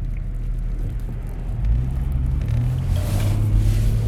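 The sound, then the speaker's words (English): Low, steady rumble of engine and tires while driving and merging into heavy road traffic, swelling slightly toward the end, with no talk. “Got to merge with traffic. Oh, that's a lot of traffic.”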